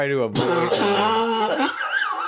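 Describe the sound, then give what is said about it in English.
A single sharp cough from a tickle in the throat cuts off a voiced sound, and talking follows right after. “Literally a tickle in my throat. Don't get angry with me. Sometimes I cough.”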